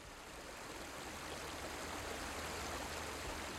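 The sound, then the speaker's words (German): Rushing current of the Hydaspes river, too torrential to cross, forms a steady, dense roar of water with no breaks, holding an even loudness throughout. “Bei unserer Ankunft am Fluss Hydaspes zeigte sich, dass ein Übergang über den reißenden Strom nicht möglich war.”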